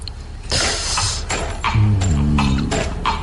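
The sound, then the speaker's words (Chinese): Recorded horse hoofbeats open a song with Moroccan-style instrumentation. Several clopping thuds fall in an uneven rhythm, and a brief low tonal sound joins midway. “这开始是马蹄的声音”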